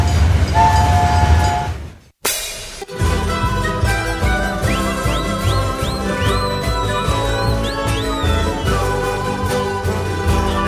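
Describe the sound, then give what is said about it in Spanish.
A train locomotive pulls its wagons with a steady, loud rumble and rhythmic rail clatter, and high whistle-like tones sweep up and fall away through the middle. A brief break interrupts the sound near the start. “Se escucha la locomotora que trae en esta ocasión los vagones”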